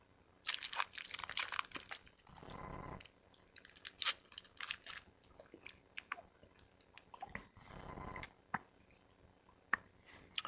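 Wrapper crinkling and chewing as a Snickers bar is unwrapped and eaten: many crisp crackles and clicks come in bursts, with two denser rustling stretches, all fairly quiet and with no talking.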